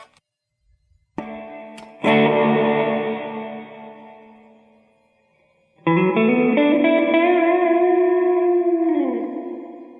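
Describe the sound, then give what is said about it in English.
Heavy reverb effect on a voice: a few long, sustained tones, each trailing into a broad wash of echoing decay. Loud bursts swell and slowly fade, with a slight pitch shift near the end and no talk. “So reverb simulates that kind of sound, like you'd be playing in a dance hall or something.”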